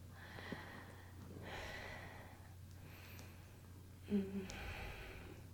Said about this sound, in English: Just catching our breath.